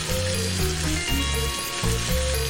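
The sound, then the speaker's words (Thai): A lobster fries in hot oil, giving a steady, dense sizzling hiss with crackling throughout. “กุ้งมังกรครับทอดฉาดน้ำมันให้ตัวหัวมันสุกครับ”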